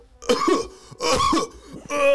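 A person imitates choking coughs from red chili fumes filling a house: three rough, hacking bursts in quick succession, fairly loud, with no talk between them.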